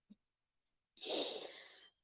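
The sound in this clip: Gentle blowing of breath (nafath) during ruqya recitation: a soft, airy exhalation held for just under a second, preceded by a brief faint puff.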